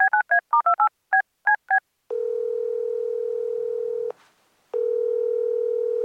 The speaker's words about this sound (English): We have some friends who are really, really good at waiting around and not doing anything. We do? Yeah, let's give them a call.